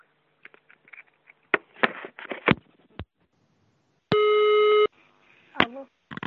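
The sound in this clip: A telephone line gives a single steady electronic tone, under a second long, amid short clicks and brief bursts of speech during a call.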